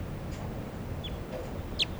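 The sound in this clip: Short, high chirping calls of a female crossbill, a few thin sharp notes rising out of a steady low background rumble, clustered mostly toward the end.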